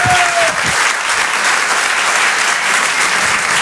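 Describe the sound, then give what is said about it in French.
Audience applause for a comedian at the Rire et Chanson Comedy Club at the Apollo: loud, dense clapping that holds steady throughout. “Faites du bruit s'il vous plaît pour Mado sur Rire et Chanson.”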